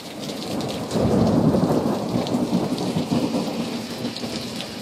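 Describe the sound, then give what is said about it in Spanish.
Rain pours steadily with deep rolls of thunder, the downpour and low rumbling swelling loud around the first second and then holding as a continuous, dense wash with no voices. “Gracias por este momento de lluvia.”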